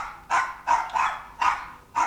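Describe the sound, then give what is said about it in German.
A small dog barks five times in sharp, high yapping bursts, each short and evenly spaced, loud and alone with no talk. “Ach, der widerwärtige kleine Hund. Willst du wohl, zieh ab.”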